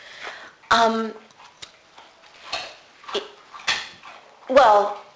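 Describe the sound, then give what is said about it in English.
A dog gnawing on a bone makes sharp clacks, crunches and scraping clicks at irregular intervals, some louder bursts standing out among fainter ticks. “The noise you hear in the background is my dog chewing her bone.”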